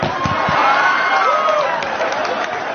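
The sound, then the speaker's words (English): Comedy club audience clapping, with a dense wash of claps mixed with crowd voices and cheering, holding at a steady, fairly loud level throughout. “I can't believe you clapped about that.”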